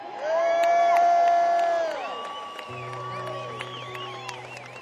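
An audience cheers and whoops to welcome a guitarist and accompanist onto the stage. The noise is loudest for about two seconds, then eases off as sustained tones carry on beneath it.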